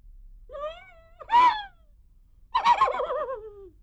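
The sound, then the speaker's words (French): A crying horse's whinny, heard as three wavering, high vocal calls. The first is thin, the second is a short loud burst, and the last is long and tremulous, sliding downward in pitch. “Le cheval pleure.”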